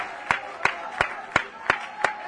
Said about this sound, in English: Would you clap your hands unto the Lord?